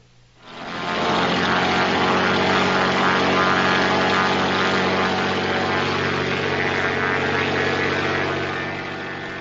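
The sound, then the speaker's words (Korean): A light aircraft's propeller engine drones steadily, rising in within the first half second to a loud, continuous roar with a low throbbing hum, holding level before easing slightly near the end. “클레어와 샘이 경비행기를 타고 어머니가 계신 곳으로 출발합니다.”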